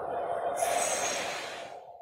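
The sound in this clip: One long, airy breath is pushed through the belly during a guided breathing exercise. The hiss swells and brightens early on, then slowly fades, with no talking over it.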